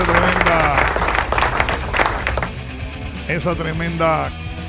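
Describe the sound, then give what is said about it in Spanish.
Applause from a crowd, a thick steady patter of clapping that eases slightly toward the end while voices come through. “Así que aplausos.”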